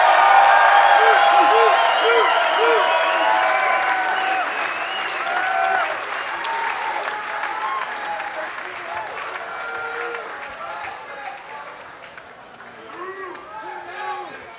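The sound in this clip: A club concert audience applauding and cheering, with dense, sustained clapping mixed with whoops and shouts that slowly thin out and grow quieter.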